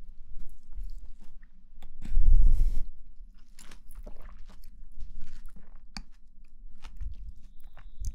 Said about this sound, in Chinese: 那请你吃个小草莓吧。